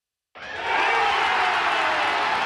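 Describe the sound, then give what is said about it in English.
Baseball fans roar at Truist Park as the final out seals a Braves win over the Phillies. A loud, sustained wall of cheering swells in quickly and holds steady to the end. “That's the sound of fans at Truist Park celebrating the final out of last night's Braves win against the Philadelphia Phillies.”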